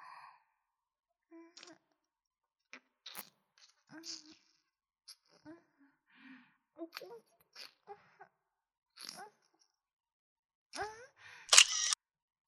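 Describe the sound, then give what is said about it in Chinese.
A camera shutter fires several times, each a sharp, brief snap at uneven intervals. Breathy sighs and soft vocal sounds from a person come between the clicks. “什么声音啊？你在拍照吗？不要拍照吗？”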